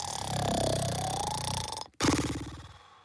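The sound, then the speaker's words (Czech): Snoring of a sloth: a long, rough, rattling breath of about two seconds, a sudden brief break, then a second rasping snore that trails off. “Pak už dál jenom chrápal”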